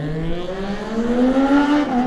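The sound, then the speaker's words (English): A 600cc Triumph supersport racing motorcycle setting off in a road race, its loud engine note climbing steadily in pitch as it accelerates. “56 is next to go. That's Toby Shan. Toby on the 600cc Triumph.”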